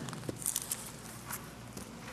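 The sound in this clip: People walk back across the ground with faint, soft footsteps. A few irregular scuffs and taps sit over a quiet background.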